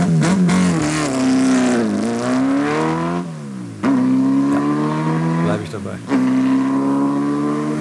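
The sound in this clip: A 904 Carrera GTS racing sports car with road registration revs its engine loudly: a harmonic-rich roar whose pitch climbs and falls several times, with brief dips between the revs.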